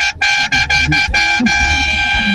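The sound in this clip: A vehicle horn honks loudly at a usina in several quick, choppy blasts, then settles into one sustained blare over a low engine rumble.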